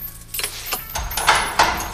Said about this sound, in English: Here, give me the keys.